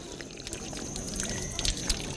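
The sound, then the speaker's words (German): Water running from a free public drinking water dispenser: a steady, bubbly pouring trickle with a few small splashy spikes. “Da sind Brunnen dabei, aber auch kostenlose Wasserspender wie der hier. Also kühles, erfrischendes Wasser, wunderbar.”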